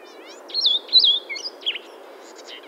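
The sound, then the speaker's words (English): A blue-headed vireo sings in Acadia National Park, Maine: several short, clear whistled phrases with quick slurred up-and-down notes, separated by brief pauses over a low steady background hum. “Birds like the blue-headed vireo,”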